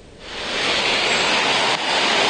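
Heavy downpour of rain over the capital city, strong enough to flood workplaces and submerge cars: a loud, steady, dense hiss of falling water that swells in the first half-second and then holds, with no voices.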